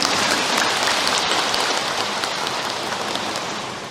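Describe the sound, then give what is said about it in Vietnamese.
Audience applause at a Buddhist dharma talk, honoring elderly practitioners still attending. Dense, steady clapping runs throughout as a continuous hiss-like wash, easing slightly toward the end. “Ai mà cỡ 70, 6 mấy, 70, 7 mấy còn tu tập ở đây là cho tràng pháo tay lớn đi nè.”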